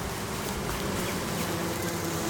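Honeybees buzz at a hive in a dense, steady drone that fills the whole stretch evenly, with no voices over it.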